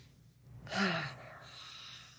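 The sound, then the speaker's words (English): One deep breath is drawn and released as a soft, sighing rush of air, quiet and alone with no talk. “let's take a moment to take a few deep breaths.”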